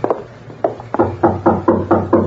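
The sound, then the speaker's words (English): Knocking on a door: a few quick raps, then a steady, evenly spaced run of firm, hollow knocks, heard alone and fairly loud. “Now, you knock”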